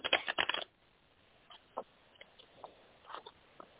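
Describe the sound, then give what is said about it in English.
Drawing a card from a deck: a quick burst of crisp papery rustles and flicks at the start, then a few faint, scattered soft clicks and slides in near quiet, with no voices. “I'll draw a card for you.”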